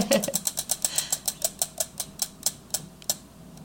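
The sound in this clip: A spun prize wheel ticks as it turns after a harder-than-expected spin: a rapid run of sharp clicks that gradually spaces out as the wheel slows, with no talk over it.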